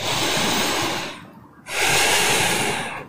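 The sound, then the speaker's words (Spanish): Deep breathing to fill the lungs, as in a seated relaxation exercise: two long, loud, airy breaths with a hissing rush, separated by a brief near-silent pause. “Comienza a respirar profundamente, a llenar sus pulmones de aire.”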